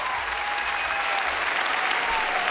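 A standing ovation from a studio audience at Studio 104 of the Maison de la Radio et de la Musique after a live song, heard as loud, dense, sustained applause of many clapping hands.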